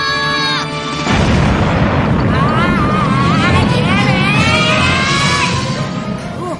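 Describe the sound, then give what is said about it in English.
A cartoon rocket blasts off from a rooftop: after a moment of quiet, a sudden loud roar starts and stays steady, with wavering high whistling tones over the rumble. “Three. Excellent. Two. One. Blast off!”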